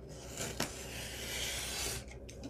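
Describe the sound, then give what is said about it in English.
Paper is cut by hand while a jumbo journal card is being made: a steady, rasping scrape with one sharp click near the start and a few quick ticks at the end. “I'll just cut this off. I won't go to my guillotine.”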